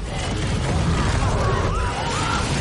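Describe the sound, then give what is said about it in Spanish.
Smaug the dragon breathes fire over Lake-town in The Hobbit: The Battle of the Five Armies, a loud, steady, roaring rush of flame that fills the whole short clip without a break. “Smaug se deja caer sobre la ciudad del lago desde gran altura. Su pecho se inflama interiormente. Suelta una lengua de fuego sobre la ciudad.”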